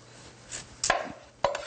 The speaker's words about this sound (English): So what we're going to do is just take off the ends here.